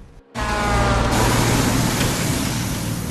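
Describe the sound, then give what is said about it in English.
A big truck passing at a road junction makes a loud, steady, broad rumbling roar that starts abruptly and holds evenly to the end. “He halts his 4x4 at a junction as a big truck takes the right of way.”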